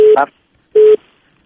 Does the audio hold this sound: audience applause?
no